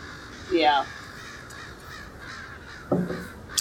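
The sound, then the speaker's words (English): Harsh crow caws echo through a video game forest, arriving in two short bursts: a run of rough, descending calls early on and a briefer cluster near the end, separated by quiet ambient background. “There's a lot of crows in this forest.”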